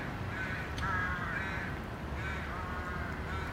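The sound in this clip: Crows caw at a nesting colony in a tall-treed urban area among residential buildings in Hamburg. A few harsh, moderately loud caws rise above a steady rushing background noise.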